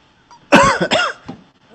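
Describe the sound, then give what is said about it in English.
Coughing from someone during a live stream, a couple of loud, rough bursts close together followed by a weaker final cough, with little else around it. “nobody wants to hear you coughing. Cut your cough out.”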